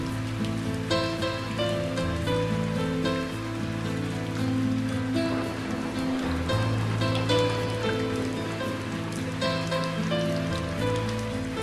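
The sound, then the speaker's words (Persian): Gentle rain patters steadily on a surface as a soft, continuous wash of drops. Calm, sustained musical tones play alongside it. “قطره‌های بارون آروم و آهسته روی دستات فروز میان. میبینی چقدر آروم دستاتو خیس میکنن.”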